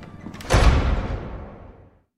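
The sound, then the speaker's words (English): A cabin door closes with one heavy thud, then a ringing tail that fades away over about a second and a half. “The assailant leaves the cabin, closing the door behind them.”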